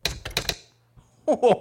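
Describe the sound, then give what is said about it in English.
Keys clack as a message is typed out: a quick run of four sharp taps, then a pause and a further burst of louder, clattering sound. “He's skeetering across the keys. He's typing a message out.”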